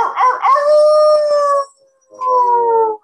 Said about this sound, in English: So that's why they give it the name the Ozark Howler.